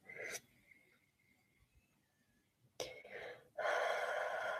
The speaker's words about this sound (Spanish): Vamos a inspirar.